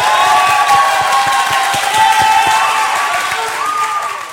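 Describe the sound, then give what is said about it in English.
Audience applause and cheering welcoming a guest speaker at a church gathering: dense, loud clapping mixed with shouts and whoops, sustained throughout and easing slightly at the end. “Could we all give a warm Victory Kalamba welcome to Joshua Tongol?”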